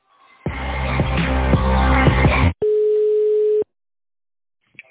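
Telephone tones while a call is being transferred: a loud, rich, buzzing tone for about two seconds, a short gap, then a steady, pure one-second beep, followed by silence and a faint click.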